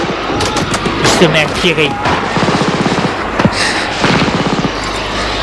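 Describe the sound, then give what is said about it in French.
Gunfire inside a shop: several rapid bursts of shots, loud and clattering, with voices overlapping the shooting. “Et là, il se met à tirer.”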